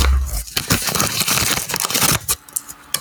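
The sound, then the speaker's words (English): Paper crinkles and tears as an envelope is opened, with many rough rustling bursts running through the whole stretch and stopping near the end, no voices. “Well, would you like to open the envelope? I would love to.”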